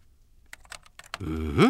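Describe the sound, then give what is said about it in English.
A few sharp keystrokes on a computer keyboard click at an uneven pace, followed by a brief louder tonal sound that rises in pitch at the end. “Okay, now, why don't you think of one, and I'll just type it in for you, all right?”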